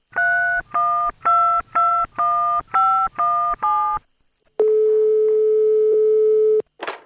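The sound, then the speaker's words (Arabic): A telephone number is dialed as eight clipped keypad tones in a steady rhythm. After a short pause comes a long, steady single-pitch line tone, then a brief burst of noise. “وفعلا اختار صلاح اسم صديقه جلال، وبدون أي تردد اتصل به على الفور.”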